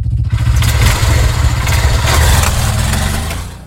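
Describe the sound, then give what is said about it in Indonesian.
A new motorcycle's engine runs with a loud, steady rumble and fast low pulsing throughout, easing slightly near the end. “Wih, motor baru nih.”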